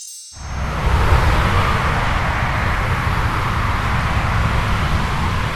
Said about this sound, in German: Das, was man hier hört, ist die A8 zwischen München und Stuttgart.